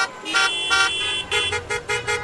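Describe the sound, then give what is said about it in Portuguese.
Car horns honk in Friday traffic, with many bright, overlapping toots coming in short bursts, some clipped and some held, over a low rumble of vehicles. “Sabe por que tantas buzinas? Porque ela tá passando, é por isso.”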